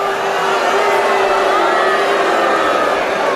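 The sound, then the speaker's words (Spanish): A convention crowd boos a protester waving a Mexican flag at a Republican convention, a loud, sustained drone of jeering voices that holds steady throughout. “obviamente, pues es una convención republicana que esperaban que hicieran, ni modo que aplaudieran, vea, obviamente están abucheando.”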